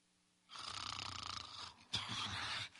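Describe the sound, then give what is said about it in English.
A man snoring in deep sleep in a jail cell: two long, rough, rattling snores, the first with a fluttering texture and the second starting abruptly. “snoring away, sound asleep.”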